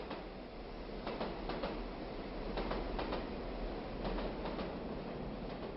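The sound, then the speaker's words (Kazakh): A train rumbles past on open steppe, a low, steady, fairly faint roar with clusters of rhythmic clicking from the wheels running through it. “Өстіп отырғанда дүсірлетіп, жер дүниені солқылдатып, бір пойыз өтті.”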